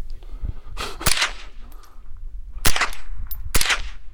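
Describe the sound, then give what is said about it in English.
Sharp cracks of a .22 gun fired at a target at 20 yards: a few short, loud reports spaced irregularly against a low background hum. “Should I shoot with one eye closed or both eyes open? Eh. Eh? It's a 22 at 20 yards, so...”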